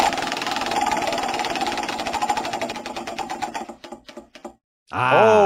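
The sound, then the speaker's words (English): A prize wheel being spun, its pointer clattering in a rapid rattle that gradually slows into separate ticks before stopping, followed after a brief silence by a loud burst of music. “All right, the wheel. Give her a spin.”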